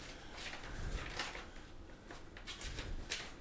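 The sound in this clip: An envelope being torn open: bursts of ripping and rustling paper rise and fall over a few seconds, with no talk.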